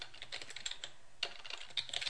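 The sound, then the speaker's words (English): Quiet bursts of clicky keystrokes come from typing on a computer keyboard, in irregular clusters with short pauses between them and no talk. “Are you annoyed waiting for me to type this in with the pauses in the recording?”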